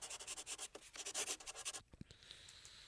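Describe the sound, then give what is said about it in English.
Pen or pencil scratching on paper as something is written down: a run of quick, rhythmic strokes that thins out into softer, sparser scratches toward the end. “I'm just writing something down.”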